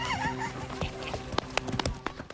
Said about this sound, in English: Fancy-looking horse you got there